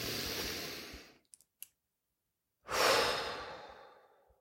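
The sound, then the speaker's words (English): Slow, deep breathing: one long, loud exhale, a quiet pause broken by a few faint clicks, then another long breath that swells and slowly fades, with no talk. “So I'm going to practice what I preach and take this moment to breathe.”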